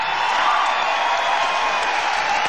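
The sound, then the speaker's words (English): Applause from an audience at a bluegrass show in Washington, D.C., a steady, dense patter of clapping that holds at an even, moderate level throughout. “Thank you, friends, for such a wonderful hand.”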